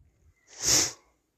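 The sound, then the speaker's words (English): One sharp inhale through the nose, a quick breathy sniff that rises and fades within half a second, alone with near silence around it. “I'm gonna inhale that Buddha stuff.”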